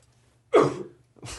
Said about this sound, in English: I'm sorry about the coughing.